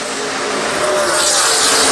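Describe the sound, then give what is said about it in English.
Stock cars race through a turn, their engines blending into one loud, continuous roar. It stays steady and grows slightly brighter across the short stretch, with no voices. “Jeremy Clements now races through turn number one as your leader. He enjoys a 2 second advantage over Ross Chastain as they head through two.”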